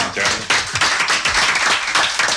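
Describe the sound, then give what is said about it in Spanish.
Audience applause, a dense and steady wash of many hands clapping loudly from start to finish, with no pause in the sound. “Se merece un aplauso.”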